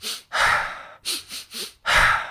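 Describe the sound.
Fast, forceful breathing from an old Sufi breathing technique: five loud breaths with no other sound, one long, three quick and short, then another long one.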